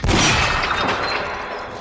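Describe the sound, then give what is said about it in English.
A gunshot breaks a chain: one sharp, loud blast right at the start, followed by a tail that fades over the next second or so. “She breaks the chain with a gunshot.”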